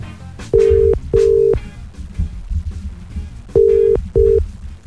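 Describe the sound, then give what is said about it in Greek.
A telephone line rings out for a radio wake-up call, two pairs of steady mid-pitched ringing tones separated by a pause, heard clearly above a quieter low rumble in the background. “Έτσι νομίζουμε πως είμαστε έτοιμοι να κάνουμε wake up call. Πάμε να πάρουμε την Εύη από το Σάκη.”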